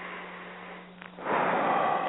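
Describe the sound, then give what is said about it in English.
A slow, deep breath taken during a guided relaxation prayer: a soft, airy rush begins after a quiet stretch and continues steadily to the end. “So I want to take a deep breath.”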